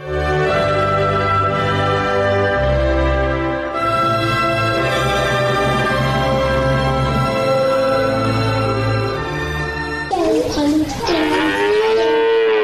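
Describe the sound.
Cattle moo in a cowshed, with long, drawn-out, loud lowing calls that overlap and sustain almost without pause, shifting into a different, higher call near the end.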